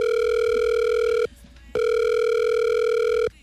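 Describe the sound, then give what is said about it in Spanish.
Telephone ringback tone as a call is placed to a presidential candidate: two long, steady, loud beeps of the same pitch, separated by a short silent gap, with nothing else heard. “Claro, mi querido presidente, marcándole al candidato presidencial.”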